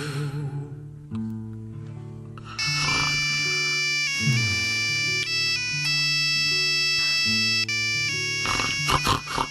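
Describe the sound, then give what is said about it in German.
A mobile phone ringtone plays a synthetic melody of bright, sustained tones that grows louder after about two and a half seconds and keeps going steadily to the end, with no voices. “Was? Wer? Ach, das Handy. Das Handy.”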